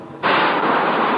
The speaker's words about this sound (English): That sound you just heard was the decompression.